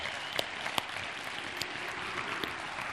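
Audience applause welcomes Coach Boyd to the stage: steady, dense clapping that stays fairly faint throughout, with a few sharper individual claps standing out from the wash.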